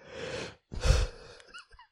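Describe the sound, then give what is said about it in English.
A person yawning after a long day and lots of coffee: a breathy intake of air followed by a louder, drawn-out exhale, trailing off into a few short soft vocal sounds. “So if I yawn”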